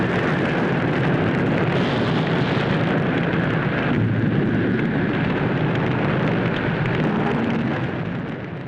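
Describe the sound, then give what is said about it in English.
A forest fire roars in a dense, sustained rumble heard through a fire-prevention ad, loud and unbroken for the whole stretch before tapering slightly at the very end. “This is what a forest fire looks like through an animal's eyes.”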